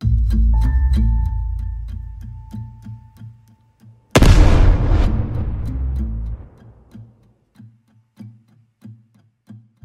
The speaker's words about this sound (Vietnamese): Tiếng nổ khủng khiếp khiến cho đất trời chao đảo dữ dội. Cho đến khi vụ nổ kết thúc, mọi thứ dần lắng xuống và vạn vật trở lại bình thường.